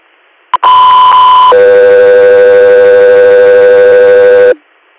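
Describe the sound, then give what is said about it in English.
Radio dispatch alert tones page an air medical crew: a brief click, then a loud two-tone sequence, a higher tone for about one second followed by a lower steady tone for about three seconds. “3 Air, stand by for tones.”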